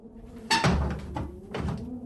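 A window is shut: two sharp knocks with a rattling clatter sound about a second apart, with a softer bump between them, over a quiet background.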